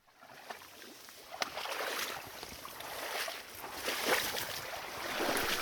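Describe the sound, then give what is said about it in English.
Muck shifts in a tiny channel draining fields of an old farm in Washington, heard as faint, steady wet crackling and gurgling with scattered small pops throughout. “That's the sound of muck in one of the many tiny channels that drain fields of the old Candle Farm in Rossburg, Washington”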